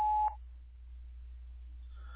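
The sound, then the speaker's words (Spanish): A single short, steady electronic beep from a voicemail system signals the start of recording a message. The tone lasts a fraction of a second and is followed by near silence over a low, constant hum. “At the tone, please record your message. When you have finished recording, you may hang up or press 1 for more options.”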